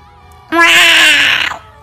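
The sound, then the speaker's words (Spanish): A newborn baby's cry: one short, high, wavering wail lasting about a second, heard alone with no talk. “Pues no, no es gato, es bebé. Es bebé bonito.”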